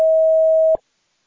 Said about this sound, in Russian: После сигнала, пожалуйста, запишите свое сообщение.